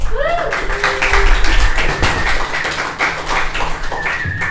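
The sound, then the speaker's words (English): Audience applause as a guest is welcomed onto a stage: dense, continuous clapping that stays fairly loud throughout, with a few thin whistle-like tones above it. “So, please put your hands together and welcome to stage my first guest for today, Bella Green!”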